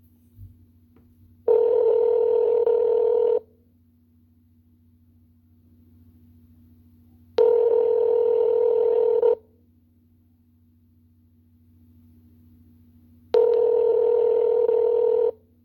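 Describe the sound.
Telephone line tones while a call is transferred: three steady buzzing tones, each about two seconds long, separated by long silent gaps over a faint low hum.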